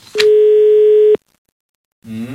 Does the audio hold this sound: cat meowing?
no